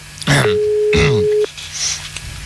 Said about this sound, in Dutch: Je moet wachten tot het op de piep, hè. Ja, ja, op de piep, dat weet ik ook wel. Na de piepzone.